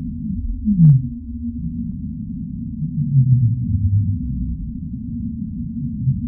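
Whale calls: low, moaning tonal vocalizations, starting with a short descending sweep and followed later by longer drawn-out moans, all over a steady deep underwater rumble.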